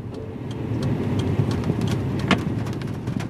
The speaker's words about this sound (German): Wir biegen ab von der Island Ring Road auf einen kleineren Weg und fahren ins Innere der Insel.